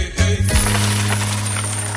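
Coins drop in a quick metallic clatter and leave a sustained ringing jingle that slowly fades.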